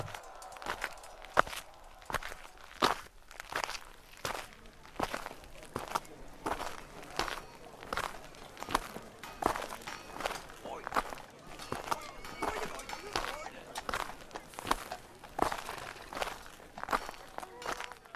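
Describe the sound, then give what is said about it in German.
Footsteps walk steadily away from a medieval fair's tournament ground toward a quieter spot, many evenly paced steps under a murmur of voices. “Aber lasst uns für die Aufnahme mal besser an einen ruhigeren Ort gehen.”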